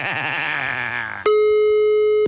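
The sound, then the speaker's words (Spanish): A steady telephone tone plays as someone places a call. A wavering, warbling tonal sound comes first, then an unbroken electronic tone holds for about a second and cuts off. “Ahora vamos a marcarle. Nos tiene que contestar.”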